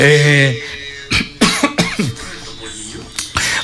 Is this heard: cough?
yes